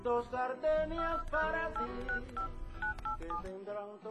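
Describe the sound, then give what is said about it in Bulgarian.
Telephone keypad tones sound as a number is dialed, a quick run of short beeps that shift in pitch, fairly quiet. “Звъня на Франк.”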